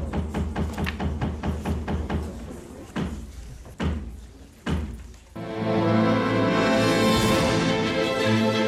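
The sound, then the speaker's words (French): The traditional knocks opening a theatre show: a string of fast, dull wooden thumps, then three loud, slower, spaced knocks, followed by music swelling in. “Le moment est donc venu de frapper les trois coups.”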